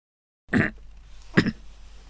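Two short coughs from a man in a historical drama scene, separated by about a second of quiet, the second slightly sharper than the first.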